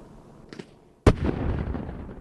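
A single explosion detonating a motorcycle and a spool of copper wire: a sharp, loud blast after a brief quiet, followed by a sustained rumbling roar that fades slowly.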